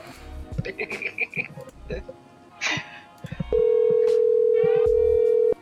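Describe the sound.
A telephone rings on an outgoing call: voices and brief bursts of noise give way to a steady, single-pitched ringing tone that lasts about two seconds before cutting off.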